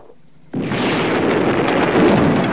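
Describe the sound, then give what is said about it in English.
A tank cannon blast hits a sandbagged bunker: a sudden, loud boom breaks in after a quiet moment and gives way to a sustained, roaring rumble. “The tank's turret swivels round to aim at the bunker and blasts it.”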